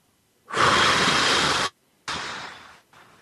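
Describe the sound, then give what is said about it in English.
Breathing exercise: a long, loud rushing breath is drawn in, then after a short pause a shorter breath is blown out and fades, followed by a brief faint puff. “And when your hand is extended, you inhale and you blow out.”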